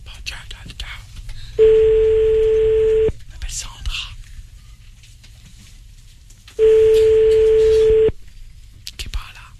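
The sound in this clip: Ringback tone of an outgoing telephone call: two long, steady beeps of about a second and a half each, separated by a long gap of quiet line hiss with faint murmuring in the background.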